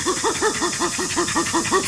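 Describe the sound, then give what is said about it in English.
Chimpanzee pant call given in a friendly approach: a rapid, rhythmic series of short voiced hoots, each rising then falling in pitch, pulsing at an even pace. “And a pant is given in an affiliative context, usually during an approach, and sounds a bit like this.”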